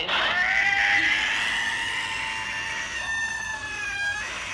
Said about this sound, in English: That's a cat. That is a cat. Sitting in a kennel at the vet's office.